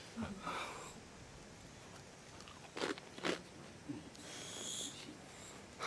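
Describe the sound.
Faint crunchy chewing as a person takes a bite of food to taste it, after removing a mask. A few soft crisp bites and crunches stand out over a quiet background.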